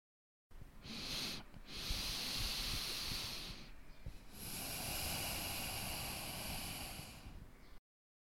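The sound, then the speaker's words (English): A slow breathing cycle with a soft, airy hiss throughout: a long inhale of about three seconds with a brief pause partway through, then a long, steady exhale of similar length. “There is a brief moment that I pause before I continue inhaling completely. And there is nothing different or unique when you exhale.”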